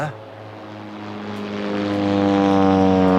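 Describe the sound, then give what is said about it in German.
An airplane flies overhead on its approach to Munich Airport, its engine giving a steady droning hum with layered tones that grows gradually louder. “Ja, aber es kann trotzdem hier passieren. Wir gehören quasi zur Einflugschneise für den Münchner Flughafen.”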